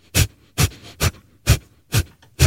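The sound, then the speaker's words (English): Rapid yoga fire breath: six sharp, forceful, noisy out-breaths in a quick, even rhythm, each a short hissing burst with brief quiet gaps for the in-breath, heard alone. “fire breath is one of the most wonderful breaths that one does in some yoga asanas that we teach at Kalinatha Yoga. It's a cleansing breath.”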